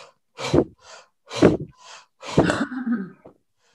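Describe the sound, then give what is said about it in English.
Deep hyperventilating breaths: three forceful, loud exhales alternate with softer inhales at a steady pace. The last exhale trails into a voiced, humming tone. “So like these really just deep, deep, deep breaths, and as deep as you can into your belly, and these very forceful exhales.”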